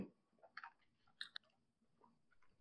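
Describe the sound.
Chewing on a sweet, fruit-flavoured gummy candy of a mystery flavour: a few faint, soft squishy bursts spaced irregularly, with no talking.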